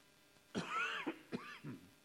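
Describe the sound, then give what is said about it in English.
Someone coughs a few times, with short, rough, throaty bursts that sound fairly faint. “I apologize for the coughing. I don't know what's the problem.”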